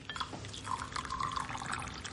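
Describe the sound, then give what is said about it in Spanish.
Tea pours into a cup at a small kitchen table as a steady, soft liquid stream that runs unbroken and faint throughout, with no voices. “Se sientan una enfrente a otra en la pequeña mesa de la cocina. La señora Michelle sirve el té.”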